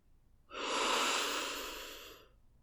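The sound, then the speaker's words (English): A single slow, deep breath during a relaxation exercise, soft and airy, rising quickly then easing off gradually before fading to quiet, with no talk. “Letting all the tension in your body go as you continue to breathe.”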